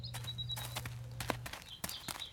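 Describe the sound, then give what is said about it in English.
Footsteps walk along a remote airstrip runway edged by low marsh grasses. A few soft, uneven steps sound over a faint low hum. “Let's walk the runway.”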